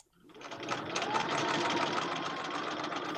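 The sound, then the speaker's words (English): A sewing machine stitches cloth face masks in a home craft room. Its motor spins up quickly into a steady, loud mechanical whir with a fast, even stitching rhythm. “KTO's Jeremy Shea found out that volunteers are handling health screenings at the airport, delivering groceries, but the vast majority are sewing.”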